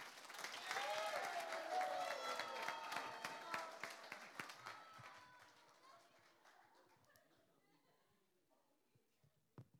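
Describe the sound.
Audience applause and cheering at a worship gathering as a pastor is welcomed up. It is loud and sustained with some voices, then slowly fades to a few scattered claps.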